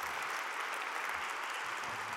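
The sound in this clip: A church audience at Center Street Church applauds to welcome a speaker. The clapping is a faint, even wash that stays steady throughout.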